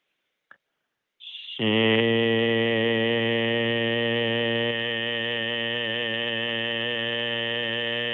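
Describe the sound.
A voice makes the qigong heart healing sound 'shing', opening with a brief hiss and then holding one steady, rich, humming tone for about six and a half seconds.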